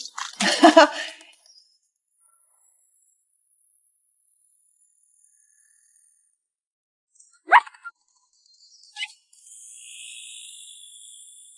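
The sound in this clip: A small dog barking on a construction site: a burst of sharp barks at the start, then long silence broken by two more short, isolated barks.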